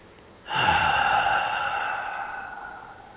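One long, deep breath drawn in sharply and audibly, starting abruptly and then fading slowly over about two and a half seconds, breathy and airy with no talking.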